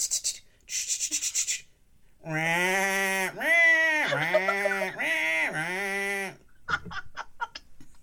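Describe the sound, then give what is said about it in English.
A human voice imitates lambs bleating with several long, wavering, nasal bleats in a row. Short hissy bursts come before them and scattered clicks follow. “And all of a sudden, these lambs are like...”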